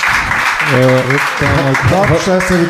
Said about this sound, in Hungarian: Tudtam, hogy taps lesz a vége.